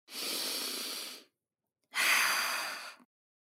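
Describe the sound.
Deep breathing during a yoga tree pose, balanced on one leg: two long, soft, airy breaths of about a second each, separated by a short silence, with no talk.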